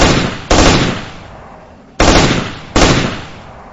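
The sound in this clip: Automatic rifle gunfire, four loud booming shots spaced unevenly, each followed by a long fading tail.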